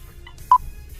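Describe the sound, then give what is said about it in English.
A single short electronic beep, the signal tone of a radio phone-in quiz game, sounds clearly at mid pitch, with a faint tone just before it over quiet background hiss. “You're going to hear three beeps. The three beeps sound like this.”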